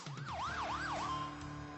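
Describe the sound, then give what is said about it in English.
A fire truck siren sounds during a homecoming parade, a quick rising-and-falling wail that cycles a few times, then settles into a steady held tone over a low engine rumble. “Waving through the window of a fire truck, Ryland Ward was thrilled to finally go home. Crowds lined the streets cheering for the six-year-old.”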